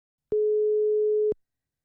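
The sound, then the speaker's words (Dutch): An outgoing call's ringing tone sounds once as a single steady beep about a second long, clean and even in pitch, with silence before and after. “Hij gaat over.”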